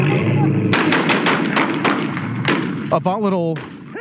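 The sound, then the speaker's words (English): Gunfire during a police officer-involved shooting in St. Louis County, captured on body camera: a rapid volley of sharp, loud shots cracks out over several seconds, followed by voices shouting. “A volatile scene from the body cam video of several St. Louis County police involved in an officer-involved shooting in May.”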